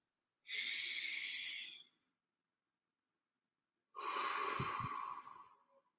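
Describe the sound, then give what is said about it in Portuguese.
A person takes a deep breath, heard as two long, airy breath sounds separated by a silent gap of about two seconds, the second carrying a faint low rumble. “Pronto, já respirei fundo e automaticamente a voz já muda aquele aperto na garganta”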